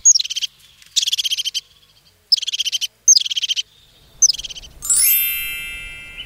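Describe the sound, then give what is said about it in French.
Crested tit song: five short, high, rapid trilled phrases, each opening with a sharp note and separated by brief pauses, followed by a different sustained high ringing tone at the end. “La mésange huppée, elle aussi, elle aime les conifères, dans les forêts ou dans les parcs, dans les jardins plus rarement. Elle fait une espèce de tri, une espèce de roulade caractéristique qu'elle répète deux ou trois fois.”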